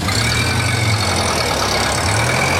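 An old car engine, hand-cranked into life, runs at a steady low idle with a loud, even rumble throughout and no clear change in pace.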